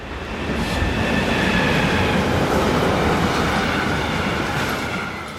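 A train passes on a railway line in the Rhine valley: a loud, continuous rumble and rattle that swells in, holds steady, then eases at the end, with a faint high metallic whine from the wheels.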